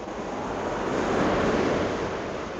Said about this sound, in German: Wasser. Jetzt kommt das Wasser wieder näher.